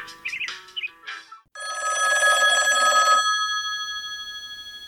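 A mobile phone rings with a bright, steady electronic tone that holds for a couple of seconds and then fades, after a few short chirping notes.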